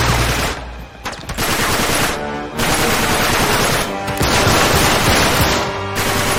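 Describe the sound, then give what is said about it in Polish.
Gunfire in a video game: loud, dense rapid-fire bursts that run almost continuously, broken by a few brief lulls. “Skoro on do mnie strzela?”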